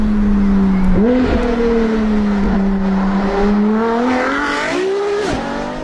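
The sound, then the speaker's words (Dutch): A Ferrari combustion-engine car revving: a loud, continuous engine drone whose pitch jumps up sharply a few times, with a rougher, strained edge between the jumps. “Het geluid van een Ferrari pikt de kenner er uit duizenden uit.”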